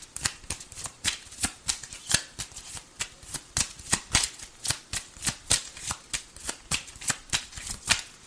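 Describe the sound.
Cards being shuffled for a reading: a long run of crisp, papery riffles and slaps in a quick, steady rhythm, many strokes repeating evenly and fairly loud, with no voices.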